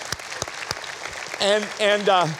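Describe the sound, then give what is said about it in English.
Audience applause breaks out as scattered sharp claps at first, then a speaker's voice rises over the clapping crowd. “That's a clap time. That's a clap time.”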